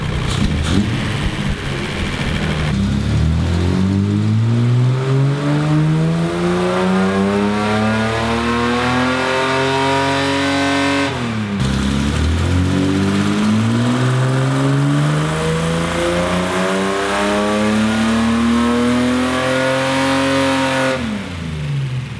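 A car engine revs hard during a baseline dyno horsepower run on a motor making about 96 horsepower and 98 lb-ft of torque. Two long, loud pulls each climb steadily in pitch, then drop away sharply before the next sweep.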